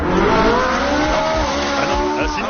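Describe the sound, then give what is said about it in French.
A large Ferrari sports car drives with a loud, sustained tone of layered harmonics that stays steady and dense throughout. “Une très grosse Ferrari, ça. Eh bien, à partir d'aujourd'hui, ça va aussi sonner comme ça.”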